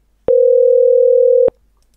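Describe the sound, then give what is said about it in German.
A single steady electronic telephone call tone, mid-pitched and clean, sounds for a little over a second on its own and then cuts off abruptly. “Sie ruft wieder an.”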